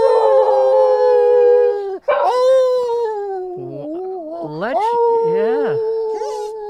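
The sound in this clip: A dog howls in long, wavering, tonal cries that slide up and down in pitch, broken by a brief pause near the middle, loud and alone without other sounds.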